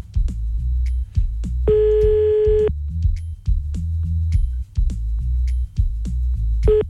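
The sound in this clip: Telephone tones as a dropped call is redialed: a steady, buzzy mid-pitched tone sounds for about a second, and a second tone starts at the very end, both over a loud, low rumbling background.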